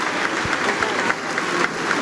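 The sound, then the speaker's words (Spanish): Applause from lawmakers in Peru's Congress greets the president before her address to the nation, a dense, sustained wash of many hands clapping at even loudness. “En tanto, los aplausos continúan a la mandataria, quien va a proceder en estos momentos a dar el mensaje a la nación.”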